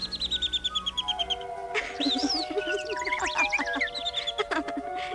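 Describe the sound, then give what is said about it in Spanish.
Small birds singing on a windowsill, a bright cluster of high, rapid trills and chirps overlapping one another after a run of quick repeated notes at the start, fairly soft and with no voices. “Unos pajarillos, amigos de Cenicienta, se posaron en el alféizar de su ventana y con dulces trinos la llamaron.”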